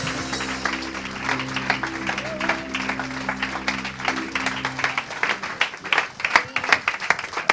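A church audience applauds and claps to welcome a minister. The clapping is dense and steady throughout, with sustained tones humming beneath it for the first five seconds before the applause continues alone.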